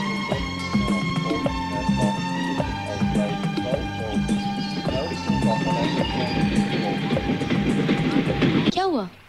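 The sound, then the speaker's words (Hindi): An approaching train: a continuous rolling rumble with rhythmic wheel clatter and a ringing tonal layer, holding steady in loudness before dropping away abruptly at the end. “Train आ रही है।”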